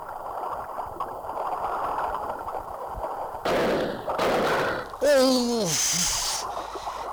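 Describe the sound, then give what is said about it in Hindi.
A gunshot fired by an English soldier at a boat in the middle of the Ganges breaks over steady background noise as a sudden, loud, sustained blast, followed by a voice crying out. “लगता है किसी अंग्रेज सैनिक ने गोली चला दी जो मेरे दाएं हाथ में आ लगी है।”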